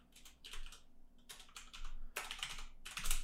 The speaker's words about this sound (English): Oh my god, I can't type today.